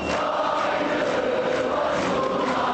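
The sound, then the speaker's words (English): Dense roar of a protest crowd of hundreds of thousands at a demonstration in Istanbul: a steady, unbroken wash of massed voices with no single speaker standing out. “That's the sound of hundreds of thousands of people who turned out for a protest demonstration yesterday in Istanbul.”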